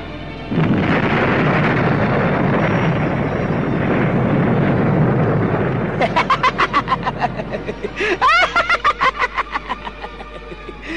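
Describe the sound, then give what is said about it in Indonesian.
A loud explosion as two magical powers collide bursts in suddenly and swells into a sustained rumbling roar, followed by rapid, repeated pulsing whooshes. “Lalu terdengarlah ledakan keras, dua kekuatan berbenturan.”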